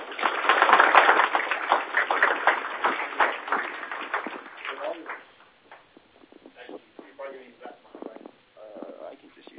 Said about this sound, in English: So if you'd put your hands together for Dan.